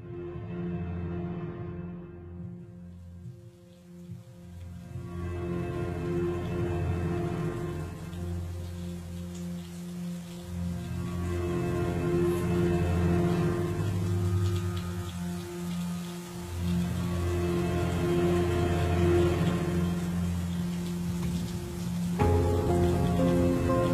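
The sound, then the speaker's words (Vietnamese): Heavy rain pouring onto an asphalt road, a continuous, dense hiss that swells and holds steady, with a sustained tonal layer running beneath it. “Cơn mưa trắng xóa bất ngờ trút xuống mặt đường nhựa, hơi nóng bốc lên hùn ngụt.”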